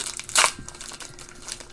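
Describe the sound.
Crinkling foil of a Pokemon Obsidian Flames card pack being opened. A sharp tearing crinkle comes near the start, followed by continuous softer rustling of the wrapper.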